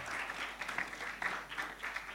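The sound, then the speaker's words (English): Audience applause at a morning musical storytelling session: a faint, steady patter of many hands clapping, fairly even throughout with small swells. “And give a round of applause for yourselves for being here.”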